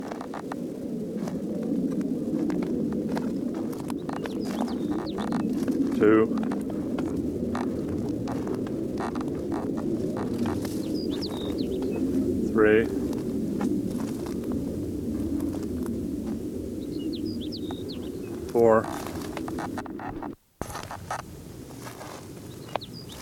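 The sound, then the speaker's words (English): Sparrow song recorded outdoors: three buzzy trills spaced about six seconds apart, with faint higher chirps, over a steady low hum and pattering background noise. “Osage Sparrow number 2.”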